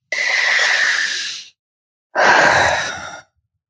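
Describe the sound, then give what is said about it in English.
A big, deep breath: two long, loud, airy rushes of breathing, the first lasting about a second and a half, then a short pause before a slightly shorter second one, with no talk. “Big, deep breath.”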